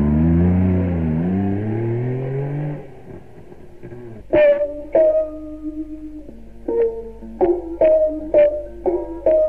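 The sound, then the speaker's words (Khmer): A car engine drones with a wavering, revving pitch as the car drives back and stops in front of a house. The engine cuts off after about three seconds, followed by a series of sharp tonal notes. “ឡាននាងធោក៏ត្រឡប់មកឈប់នៅមុខផ្ទះយីនូនវិញ”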